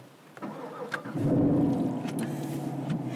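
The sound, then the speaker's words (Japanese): A 6.2-litre car engine starts: a brief whirring crank, then the engine catches and settles into a steady, low, rumbling idle, fairly faint. “早速エンジンをかけていただいて、 はい、 いいですか。”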